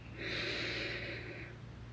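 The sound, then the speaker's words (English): A single deep breath drawn in during a guided breathing exercise, a soft airy inhale lasting about a second and a half, faint and alone without talk. “Deep breath in.”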